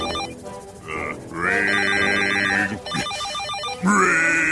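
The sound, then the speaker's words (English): A telephone rings in loud, sustained electronic tones with strong harmonics, sounding in a few separate bursts with short gaps between them. “That's just a phone”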